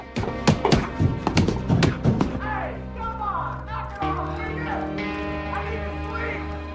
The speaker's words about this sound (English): He gets up and starts hitting a punch bag.